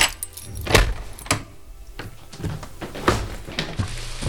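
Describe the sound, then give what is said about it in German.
Keys jangle as a studio door is unlocked: a few sharp metallic clicks and rattles at moderate loudness, with no talk. “Können wir ins Studio, Hank? Natürlich. Ich muss nur eben aufschließen.”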